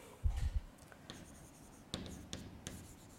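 Writing on a board during a physics lecture, heard as a few short, scratchy strokes and light taps separated by brief pauses, fairly faint and with no talking.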